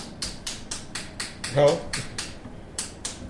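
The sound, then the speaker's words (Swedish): Knocking behind a speaker: a rapid, steady run of many sharp, light taps, evenly spaced, with a brief gap near the end before a couple more. “Men det knackas lite här bakom.”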